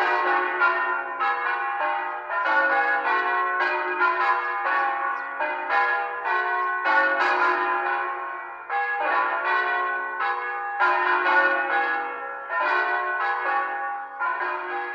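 Church bells ring on and on, many loud overlapping strokes forming a continuous, shimmering peal with no voices over it.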